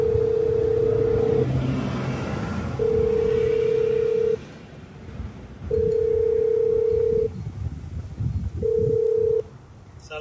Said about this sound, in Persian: آقا زنگ میخوره داخل؟ بله.